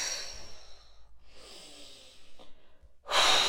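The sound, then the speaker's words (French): Slow, soft breaths during a guided relaxation exercise of tension and release, a few breathy passages ending with a louder, fuller exhale. “Inspiration, rétention de l'air, tension douce de notre tête, nous faisons une légère grimace, expiration et relâchement.”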